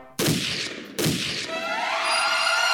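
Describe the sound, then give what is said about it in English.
Two loud gunshots ring out in quick succession, each a sharp crack with a long decaying tail, followed by a sustained tonal drone; no voices are heard. “That sounded like a gun.”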